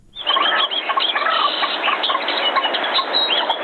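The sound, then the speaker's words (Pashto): Birds chirping and singing in an outdoor recreation area near Ghazni city, Afghanistan: a dense chorus of many overlapping, high, bright calls that stays loud and steady throughout without a break. “له غزنی څخه مو حبیب الرحمن تاثیر په دې راپور کې د سیمې ته ورولي چې مرغان پکې سندري وایي”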